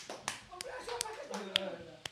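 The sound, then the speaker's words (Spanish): A small group gives scattered applause for the Asociación Alarde basketball group, a few sharp, separate hand claps ringing out under people talking. “Un aplauso, muy bien, sí señor.”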